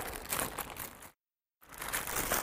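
Crinkling of a plastic bag of milk, the Canadian bagged kind, as it is handled. Two stretches of dense rustling and crackling are split by a short silence.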